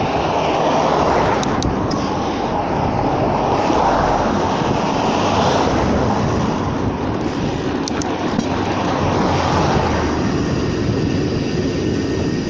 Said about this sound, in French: Allez, hop, j'accélère pour avoir le feu.